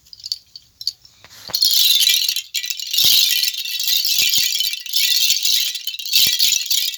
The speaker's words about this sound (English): Imagine these small cone-shaped shells tied onto a string, close enough together so that if the string is shaken, the shells cling together, like this.